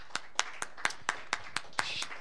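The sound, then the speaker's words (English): A church audience claps in unison on a steady beat, about ten sharp, evenly spaced claps cutting through a quiet background. “Let's give a clap offering for that.”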